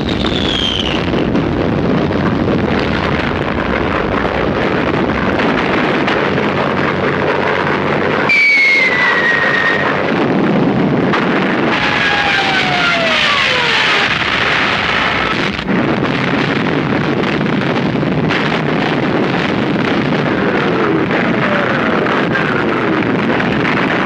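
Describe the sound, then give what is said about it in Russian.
Artillery firing on command in a wartime battle scene: a continuous roaring, wind-like rumble broken by heavy bursts. Descending whistles streak through the din, with no voices. “Открыть огонь! Огонь! Артиллерия стреляет.”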